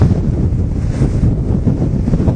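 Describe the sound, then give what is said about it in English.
High, rough ocean waves roll and churn in a continuous low roar, with heavy wind buffeting the microphone throughout and no distinct individual breaks. “Waves.”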